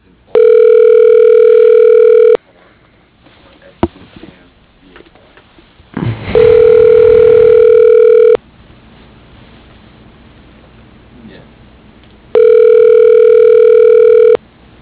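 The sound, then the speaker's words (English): Telephone ringback tone before a voicemail greeting answers: three long, steady, buzzy rings, each about two seconds, separated by longer quiet gaps with a faint hiss and a single sharp click. “you've reached the voicemail”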